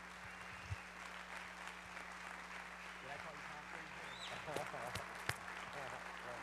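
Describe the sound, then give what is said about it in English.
A church audience gives a standing ovation to a guest rabbi, soft, continuous clapping from many hands over a low electrical hum, with a few sharper claps standing out near the end. “It's great to get a standing ovation before I say anything.”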